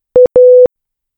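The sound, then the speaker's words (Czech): A Morse code telegraph signal for the letter A: one short beep, then a longer beep of the same steady mid-pitched tone, sounded clearly with no other sound. “Tak například, písmeno A se vyťukalo jako krátká a dlouhá slabika slova akát”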